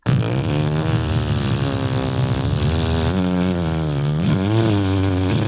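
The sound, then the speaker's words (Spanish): A motor-driven cutter runs and cuts, giving a loud, continuous engine drone with a buzzy harmonic whine. Its pitch sags and recovers a few times as the blade takes load. “Ese es el motor. Ah, estaba aprendiendo al principio. Claro, está en reposo. Claro. Ahora falta que corte. Ahí viene la cortada.”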